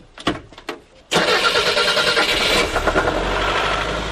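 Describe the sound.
A car engine starting on a car prepared for a long charity road trip: a few short clicks and cranking bursts, then the engine catches abruptly and settles into a loud, steady running rumble.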